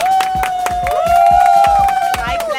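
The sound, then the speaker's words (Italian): A crowd of friends applauds a guest at a show with brisk, overlapping claps, mixed with a sustained loud cheering voice and general crowd noise. “Allora iniziamo a sottolineare che questi non sono spettatori paganti e non sono persone che Clelia ha pagato per applaudirla nel momento in cui dicesse il suo nome.”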